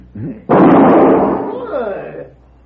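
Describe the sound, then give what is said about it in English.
A gunshot fired to knock a gun out of someone's hand: one sudden loud bang that hangs on and slowly fades over about two seconds, with brief voice sounds just before and during the tail. “He's good with guns. Very good, senor. You just shot the gun from my hand.”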